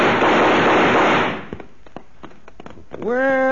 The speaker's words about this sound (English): but shoot over their heads